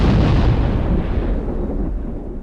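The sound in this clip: A bomb explosion sound effect: one loud, deep booming blast of broad rumbling noise that fades gradually over about two seconds, with no voices.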